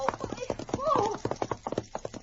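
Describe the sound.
Rapid horse hoofbeats from a mount ridden at full speed down a twisting trail clatter in many sharp, evenly spaced clops, loud and steady throughout.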